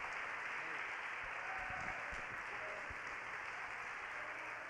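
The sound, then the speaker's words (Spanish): Faint applause from a church audience during a worship service, a soft continuous patter of many hands at a low, even level, with a few brief low thumps in the middle. “Dale un aplauso fuerte a la gloria del Señor. Fuerte ese aplauso a la gloria de su nombre.”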